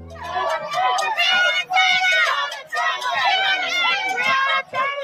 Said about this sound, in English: Sounds from last night, where thousands of people protested in cities across the country. New York, Chicago, D.C., and Louisville.